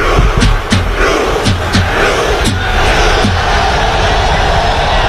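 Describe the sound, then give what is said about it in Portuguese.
Norway fans roar in celebration at MetLife Stadium after a win over Brazil, making rowing gestures. A dense, loud crowd noise runs throughout, marked by a few sharp rhythmic hits early on. “A festa da Noruega com este som aqui no MetLife Stadium.”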